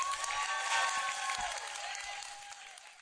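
A church audience applauding in welcome, a sustained wash of many hands clapping that gradually eases off toward the end.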